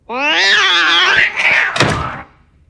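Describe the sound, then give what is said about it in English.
A male house cat lets out a long, loud, drawn-out meow with a wavering pitch, followed by a short thump as the cry fades away. “He wants to play. Well, sorry, kitty. It is bedtime in here. But we can play tomorrow.”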